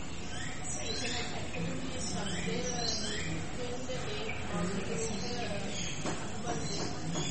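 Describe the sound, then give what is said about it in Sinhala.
A bird calling, with a few short rising chirps against a steady, faint background hiss. “ඊළඟට කියනවා අර කුරුල්ලා කෑ ගහන සද්දේ තමයි ඔය ඇහුනේ කියලා.”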